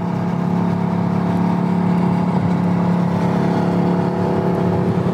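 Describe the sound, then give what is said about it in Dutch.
A Mercedes-AMG GT engine with its sport exhaust switched on gets a short press of the accelerator, producing a loud, steady, throaty drone that holds throughout with no voices. “en nu even op het gas. Klein stukje dan.”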